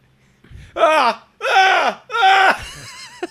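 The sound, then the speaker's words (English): A man's voice imitates another man yelling in the night: three long, loud, strained yells separated by short pauses, each sliding downward in pitch at the end. “Wake up in the middle of the night, and we hear this, like, yelling. Yeah. And it's just this dude going, like,”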